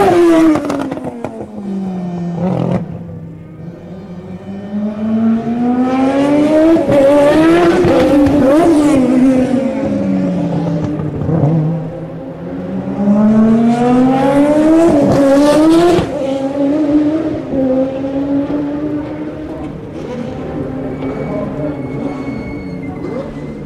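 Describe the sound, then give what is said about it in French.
Formula One cars roaring past the pits, the engine whine sweeping up and down in pitch over several loud pass-bys, with high-revving harmonics and a continuous mechanical roar throughout. “Arrêt au stand, plus passage rapide devant les stands.”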